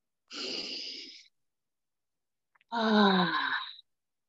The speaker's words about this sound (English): Take a few more deep breaths